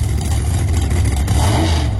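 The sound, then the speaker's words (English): High-revving Pro Stock drag racing car engine, a loud, continuous roar that holds steady for the whole moment, with no voices over it. “Pro Stock Nationals, two massive nights of high revving Pro Stock car and motorcycle drag racing”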